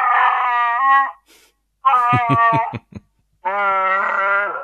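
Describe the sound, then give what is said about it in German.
A small plush toy of a furry space creature, about 20 cm tall, roars when its belly is pressed: three loud, growling, howl-like calls separated by short silences, the middle one broken up by rattling, stuttering pulses. “So ein kleines Chewbacca-Plüschtier. Und wenn man dem auf den Bauch drückt, dann macht er folgendes Geräusch.”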